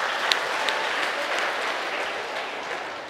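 Audience applause at a Buddhist dharma lecture by a monk, dense steady clapping that fills the whole clip at an even, fairly loud level.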